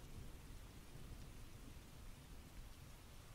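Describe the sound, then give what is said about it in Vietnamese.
Rain and thunder pour in through an open car door, a faint, steady hiss of rainfall over a low rumbling undertone, with no voices. “Tiếng mưa ở bên ngoài tràn vào bên trong xe, cùng với tiếng sấm sét làm cho tôi bất giác rúm lại.”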